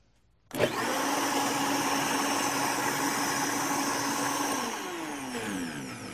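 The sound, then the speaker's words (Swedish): A kitchen blender mixing berries switches on abruptly into a loud, steady motor whir that holds for several seconds before its pitch winds down near the end. “Okej, okay, så ska vi mixa den igen.”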